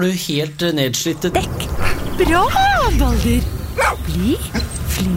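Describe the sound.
Dog at a dog-training session gives a few short barks and yelps, mixed in with a man talking and praising it.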